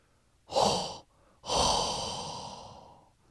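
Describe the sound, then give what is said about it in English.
Hot, heavy breathing goes straight into a microphone as two breathy exhalations, the second longer and slowly fading. “you know what time it is. Hot breath.”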